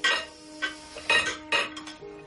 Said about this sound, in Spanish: Se levanta, recoge el plato y tira la comida a la basura. Lo friega en el lavabo